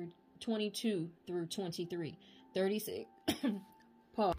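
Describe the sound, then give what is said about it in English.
Coughing and throat clearing from a throat irritated by incense burning indoors: several raspy, voiced bursts come in uneven clusters, fairly loud and alone, with short pauses between them. “My throat was acting up because of the incense in here, but also probably some throat chakra interference.”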